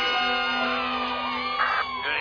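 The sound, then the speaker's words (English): Children cheering and whooping at a school assembly, a crowd of young voices shouting together loudly and continuously, with a brief louder burst near the end. “I'd like to say thanks and applause to birthday boy Milhouse for his totally bitchin' party on Saturday.”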